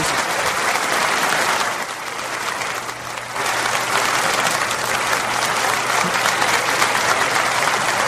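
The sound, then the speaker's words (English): An audience claps in a dense, steady wash of applause that holds loud and even throughout, dipping briefly midway before swelling back, with no voices standing out. “Just clapping.”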